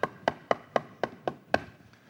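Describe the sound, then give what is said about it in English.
Knocking on a door: seven sharp, evenly spaced raps, each a crisp hit with a short decay, arriving at a steady moderate pace over about two seconds, with no voices. “He stands outside the door and he's knocking. He's waiting for somebody to let him in. How long is he knocking? Does it say he knocks three times? Oop, that was like five times.”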